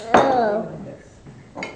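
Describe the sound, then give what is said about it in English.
A knife clinks against a dish while food is cut for bread: one sharp metallic tap with a lingering ring, then a second, softer tap about a second and a half later. “I'm going to cut. Okay, now you cut it first and then put it on the bread?”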